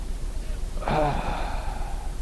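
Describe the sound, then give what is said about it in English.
A voice imitates a dying man's slow exhaled breath as a single short, breathy sigh with a voiced, groaning edge. It rises briefly out of faint background hiss and fades within about half a second. “Every breath could be the last one. And he would exhale, he'd go,”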